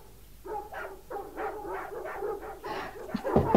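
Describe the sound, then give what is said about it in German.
Dogs barking and yipping in a quick run of many sharp, repeated bursts, some with a whimpering edge, moderately loud and with no talk over them. “Die Hunde sollen still sein.”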